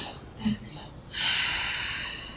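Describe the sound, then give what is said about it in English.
Deep exhale through an open mouth during a guided breathing exercise, a steady breathy rush of air lasting over a second, preceded by a short, soft breath sound. “Inhale through the stomach, inhale through the chest,”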